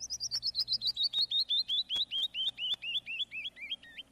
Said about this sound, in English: I know that guest. That's a canyon wren.